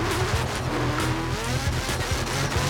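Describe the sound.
A car drifts with squealing tires: a loud, continuous engine roar whose pitch wavers up and down as the tires screech throughout, with no voices.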